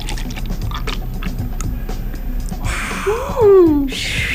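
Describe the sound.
Liquid poured from a plastic container, the crinkle and squeak of the plastic louder than the liquid, in a burst of about a second near the end with a squeaky tone that rises briefly then slides down, over a low background murmur.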